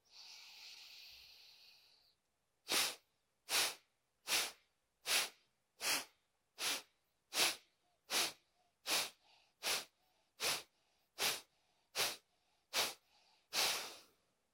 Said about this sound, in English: the point is to breathe in as much air as you can, and then we'll accentuate the exhale breath as we exhale the air out of the body. All right, let's do this together. Deep breath in.